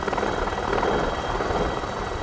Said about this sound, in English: On day two, they wanted to show us something else, by helicopter. Yes, indeed. They took us up in a helicopter.